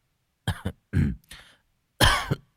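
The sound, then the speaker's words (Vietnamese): A young man coughs and clears his throat several times in short, rasping bursts. A quick cluster of coughs comes first, then a pause, then one final louder cough with no speech around it. “Người thanh niên húng hắng ho vài cái rồi ngắt lời:”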